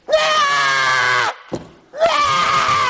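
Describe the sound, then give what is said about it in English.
A voice imitates a newborn baby screaming: two long, loud, high, strained wails with a short break and a brief noise between them. “Why else would he be screaming?”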